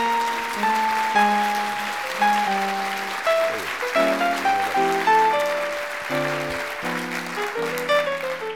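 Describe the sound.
An audience applauds to welcome author Eric Schlosser, writer of Fast Food Nation, onstage: sustained clapping that swells and wavers, with a tune of clear musical notes playing over it throughout.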